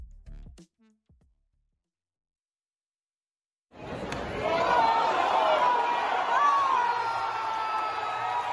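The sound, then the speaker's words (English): After a near-silent gap, a stadium crowd at Dodger Stadium erupts as Albert Pujols of the St. Louis Cardinals hits his 699th career home run, a sudden swell of roaring cheers that stays loud and sustained to the end. “That's the sound of Albert Pujols of the St. Louis Cardinals hitting the 699th home run of his career last night at Dodger Stadium. The crowd was audibly excited.”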